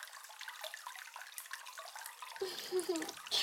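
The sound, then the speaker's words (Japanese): Water as hair is washed during a scalp massage, a faint continuous splashing and trickling texture that grows fuller and louder near the end. “頭を洗いながら指圧もしていきます。”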